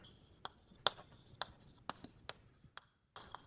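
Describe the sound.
Writing on a board during a mathematics lecture: many short, faint scratching and tapping strokes in an irregular rhythm, each a brief dry tick, with no voices.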